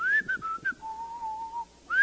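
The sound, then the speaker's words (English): Clear human whistling played as part of a song: a few short, bright notes, then one long, steady, slightly lower note, followed by a pause before a high note returns. “Whose idea was that? To whistle in that? It was awesome. Who does the whistling?”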